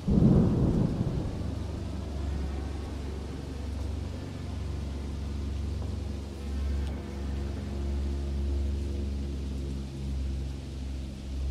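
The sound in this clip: A thunderstorm with rain by a roadside: a loud thunder crack at the start rolls into continuous low rumbling under a steady hiss of rain.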